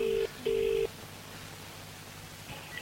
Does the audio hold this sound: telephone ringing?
yes